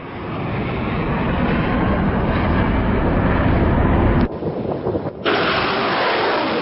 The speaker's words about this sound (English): Sounds of missiles being fired in the port city of Mocha, where the Iranian-backed Houthis have just taken control.